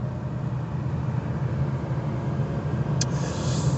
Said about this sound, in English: We might get a bit of background noise because, hey, we're actually moving.